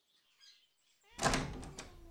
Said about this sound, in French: Le vétérinaire ouvre la porte de la salle d'attente.